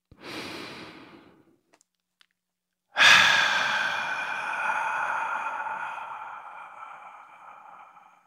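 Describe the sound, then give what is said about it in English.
A slow deep breath: a soft inhale of about a second and a half, then after a pause a louder, long breathy exhale with a faint ringing tone that gradually fades. “So, now if you're ready, let's take a deep breath.”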